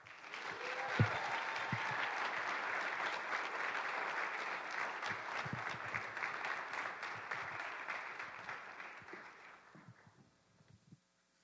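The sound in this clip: An audience at an ENC gathering applauds to welcome a speaker. Dense, steady clapping holds for about ten seconds, then thins out and fades to silence.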